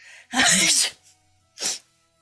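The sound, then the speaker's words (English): A person sneezes after powder is blown into her face: a long, loud sneeze, a short pause, then a second shorter, quieter sneeze. “It's going to... up in her face, causing her to enter a sneezing fit.”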